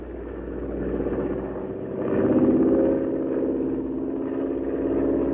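A plane's engine drones steadily as the pilot throttles down during a flight with drop tanks, a dense low rumble that swells louder midway and then settles back to an even hum.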